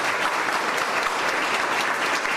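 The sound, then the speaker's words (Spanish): Loud, dense audience applause fills an award ceremony for a national quality prize, a steady wash of many hands clapping that holds at an even level throughout. “Fuertes aplausos, señoras y señores.”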